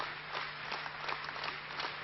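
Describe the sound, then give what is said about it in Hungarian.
Delegates standing in a hall and applauding after a speech, a dense, even patter of many hands clapping at once over a low, steady hum. “A bejelentés alatt néma csend lett a csarnokban, majd a beszéd végén a küldöttek felállva tapsoltak.”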